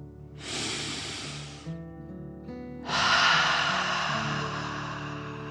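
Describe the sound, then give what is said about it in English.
Deep belly breathing: one long airy inhale, a pause, then a louder and longer breath out, heard over a soft, steady musical drone. “let's take another deep dragon breath. Fill up your belly, in and out.”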